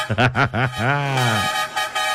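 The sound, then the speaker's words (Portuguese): A horn honks as a wake-up call on a morning radio show, with a few short toots that bend in pitch followed by one longer, wavering blast, then a brief burst of noise. “Mais uma chamada na buzina pra galera despertar.”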